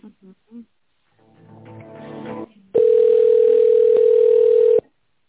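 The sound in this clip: Telephone tone while a call is transferred to a secretary: a few brief beeps, a stretch of quieter tonal sound, then one loud, steady, even tone held for about two seconds before it cuts off.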